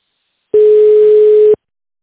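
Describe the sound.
A telephone tone sounds while a call is being transferred. It is a single steady, loud, low-pitched beep lasting about a second, with silence before and after.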